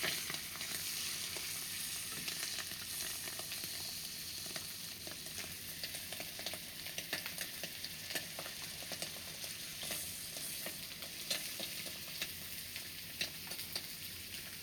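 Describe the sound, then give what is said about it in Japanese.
Meat sizzling as it cooks: a loud, dense, continuous frying hiss with scattered sharp crackles and pops throughout, steady in level and heard alone without any talk. “肉の焼ける音もいいよね。”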